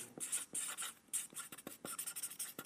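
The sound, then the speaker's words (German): A marker writing on flipchart paper, with many short, faint scratchy strokes in an uneven rhythm separated by brief pauses. “Also ich schreibe das mal auf die Flipchart auf, was sie dort alles so erlebt haben.”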